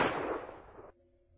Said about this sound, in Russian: прицельно выстрелил полковнику в голову из его же оружия